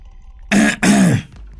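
Throat clearing from a young male servant, given as a quiet warning: two short, rough bursts in quick succession, the second a little longer, with no speech around them.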